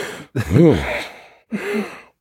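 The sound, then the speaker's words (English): A voice imitates heavy breathing with two loud, rasping, partly voiced breaths, the first longer and gasping, the second shorter, separated by a brief pause. “So halfway through, I start breathing heavy.”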